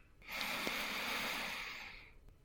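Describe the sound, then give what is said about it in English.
A deep inhale drawn during a guided breathing exercise: one long, steady, airy rush of breath that swells quickly, holds for nearly two seconds and tapers off, heard alone. “Then bring in your first deeper inhale.”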